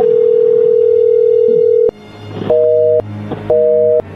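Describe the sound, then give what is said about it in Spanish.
Ringback tones on a phone call being redialed: one long steady tone, then two shorter, higher two-tone beeps separated by brief gaps, with no talk. “A ver, márcale por última vez.”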